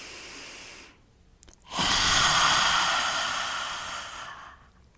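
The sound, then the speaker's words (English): A person takes a deep breath in through the nose, pauses briefly, then lets out a loud, forceful, dramatic exhale. The breathy rush lasts about three seconds and slowly fades, with no talking. “I'm going to close my mouth. I'm going to take a deep inhale through my nose.”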